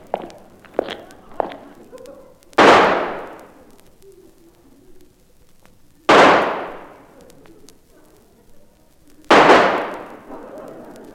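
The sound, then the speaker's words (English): Three loud pistol shots ring out in a staged duel, each a sharp bang with a long fading tail, spaced a few seconds apart. A few light clicks and taps come before the first shot. “Take this pistol. I warn you, I never miss. Nor I. One shot Moriarty, they call me. Now back to back. Three paces, and then we fire, monsieur.”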